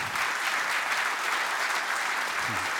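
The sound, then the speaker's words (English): A church audience applauds to welcome speakers to the front, with dense, continuous clapping at a steady, full level across the whole stretch. “Put your hands together. Welcome these guys.”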